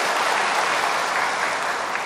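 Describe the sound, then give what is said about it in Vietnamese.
An audience at a monk's talk gives a round of applause, a thick, even roar of many hands clapping at once, with no break for the whole two seconds. “xin cho một tràng pháo tay cảm ơn tất cả các vị”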